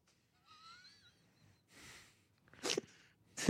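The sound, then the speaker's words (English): A demure, restrained sneeze from a large, tall man: a soft drawn breath, then short breathy bursts, fairly quiet overall against near silence. “What a demure sneeze you have for such a large, tall man.”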